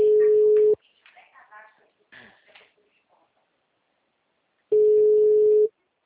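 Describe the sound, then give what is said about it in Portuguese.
Ringback tones of an outgoing phone call to a client: two long, steady low-pitched rings separated by a pause of several seconds, with faint talk and muffled sounds in the gap between them. “Peraí, eu tô ligando pro cliente aqui rapidinho.”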